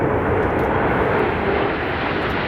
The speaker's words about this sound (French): Est-ce que vous reconnaissez ce bruit caractéristique ? C'est un avion. Les avions de chasse.